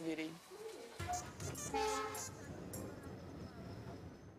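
An Indian passenger train runs near Varanasi, heard from beside the open door: faint, steady rumbling and rattling, with a short horn-like tone early on.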